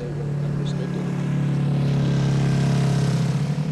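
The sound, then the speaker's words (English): Engine of a student-built competition car on an acceleration run down a straight 75-meter strip that normally serves as pit row. A loud, steady drone holds a nearly constant pitch throughout. “This morning, the teams are doing acceleration runs on what normally serves as pit row. One by one, students drive as fast as they can down a straight 75-meter strip.”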